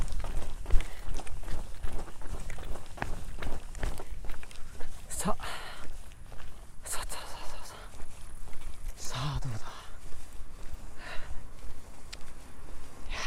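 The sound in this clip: Footsteps of a person jogging lightly during a long walk, a steady run of soft footfalls heard under ongoing talk.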